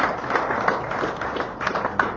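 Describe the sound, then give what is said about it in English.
A round of applause from a small group: continuous, fairly even clapping with a few sharper claps standing out over a short stretch. “round of applause.”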